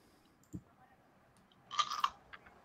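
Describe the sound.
Chewing while eating, faint and sparse: a single soft thud, then a short cluster of crisp crunchy bites before quiet returns.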